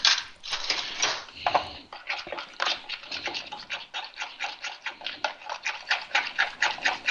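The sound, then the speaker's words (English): A fork whisks eggs together in a bowl, making many quick, rhythmic clicking strokes that keep up an even tempo from start to finish. “We're going to whisk all this up together. Get a fork here.”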